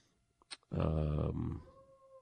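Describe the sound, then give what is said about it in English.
A dog gives one loud, drawn-out, throaty bark lasting under a second, preceded by a couple of faint clicks and followed by a quiet lingering tone. “That dog. You know, the funny thing is she doesn't do it the rest of the day. Just during your show? It's first thing in the morning”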